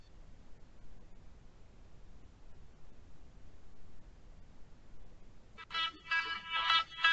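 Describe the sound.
A phone rings with an incoming verification call: a bright electronic ringtone with layered tones bursts in near the end, after several seconds of steady low hiss.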